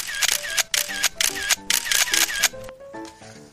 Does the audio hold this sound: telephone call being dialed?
no